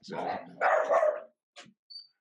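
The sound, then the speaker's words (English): Dogs barking nearby: a few rough, loud barks in a burst at the start, then a pause and a couple of shorter, fainter yips near the end. “the dogs barking around. I'm gonna shut my door.”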